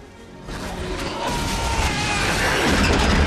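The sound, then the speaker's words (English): An explosion bursts from an engine shed beneath a fairground Ferris wheel, a broad noisy blast that swells into a sustained, roaring rush and keeps building to the end. “a man opens an engine shed and is thrown backwards by an explosion.”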